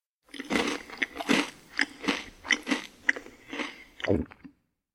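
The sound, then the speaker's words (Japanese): Roasted soybeans are crunched and eaten during a bean-throwing ritual: many crisp, brittle bites and chews in an uneven rhythm, close and fairly quiet, with no talking. “はい、豆も食べてしまいました。”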